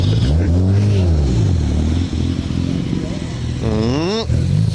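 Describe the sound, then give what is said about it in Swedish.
An old BMW car drives past at a vintage car event, its engine giving a loud, steady droning hum whose pitch wavers, then climbs briefly near the end. “Oj, här kommer en fin gammal BMW också.”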